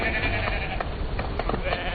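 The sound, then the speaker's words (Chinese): Sheep bleating as they are herded home, several wavering, nasal calls overlapping through a dense, continuous rural background. “走，我们赶羊回家去。”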